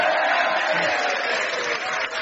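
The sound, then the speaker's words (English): A live comedy show audience cheers and applauds, a dense, sustained roar of voices and clapping at a fairly steady loudness. “That was exactly the right point to go hooray, ladies and gentlemen.”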